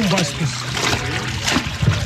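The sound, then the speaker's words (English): Continuous sloshing and splashing of liquid as tannery workers soak goat, sheep, alligator and snake leather in a mixture of ash, sodium chloride and dung. The watery churning runs throughout, with voices talking over it. “Sounds of workers soaking the leather in a liquid mixture of ash, sodium chloride, and dung fill the neighborhood.”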